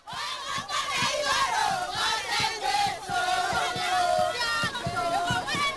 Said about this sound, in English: Supporters of the President lined up along the road with banners written on "Our President, Our Hero" as traditional dancers and musicians unleashed their best vocals to welcome him